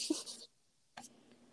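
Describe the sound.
A tarot card drawn from a deck gives a soft, papery rustle and slide of under half a second. After a pause comes one short, faint scrape, all quiet and with no voices.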